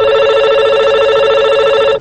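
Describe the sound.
A telephone rings for a listener call-in: one loud, steady electronic ring that lasts about two seconds and then cuts off.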